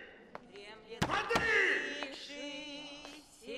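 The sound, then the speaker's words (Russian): A man knocks on the bunks in a holding cell, producing a few sharp wooden knocks, the loudest two close together, with voices murmuring in the background. “КПЗ. Мужчина стучит по нарам.”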